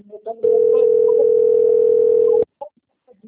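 A telephone call tone sounds as one steady, unbroken pure tone lasting about two seconds, loud and level, with brief faint sounds just before and after it.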